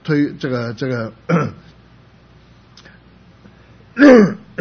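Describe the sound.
A man clears his throat during a spoken Bible teaching, a short rough burst set between stretches of his talking.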